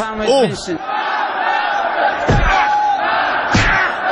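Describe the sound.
Parliament members chanting slogans and scuffling, a loud tangle of shouting, chanting voices with two heavy low thuds cutting through the commotion.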